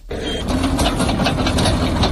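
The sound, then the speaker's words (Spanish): Military emergency unit tractors cutting firebreaks against a wildfire in Huesca, Spain: a steady, loud, gritty engine roar with a rapid rhythmic pulsing running unbroken throughout. “Y este es el sonido de los tractores de la Unidad Militar de Emergencias, que entre otras actuaciones está realizando cortafuegos para intentar frenar las llamadas en Castillon Roy, en Huesca.”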